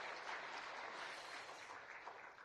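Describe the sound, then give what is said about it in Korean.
Faint applause from a church audience during a service, a steady wash of many hands clapping that thins slightly toward the end. “우리 뒤에 계시는데 우리 큰 박수 하겠습니다.”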